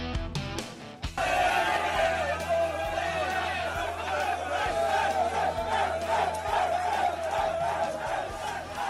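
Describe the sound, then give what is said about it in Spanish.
Players cheer and celebrate with champagne in a dressing room at Cornellà as the club president enters. After a quieter first second, loud shouting and rhythmic chanting burst out and continue with regular pulses to the end. “Es el sonido y la imagen que nos deja ayer la entrada del presidente Joan Laporta al vestuario en Cornellá, celebrando con los suyos, con el champán”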